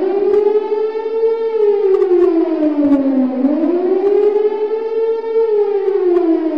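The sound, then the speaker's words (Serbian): Civil defense sirens wail across northern Kosovo: one loud, continuous tone that slowly sinks, then climbs back up, then dips again near the end. No voices are heard. “Kada god procene da je vreme za gužvu, severom se razležu sirene.”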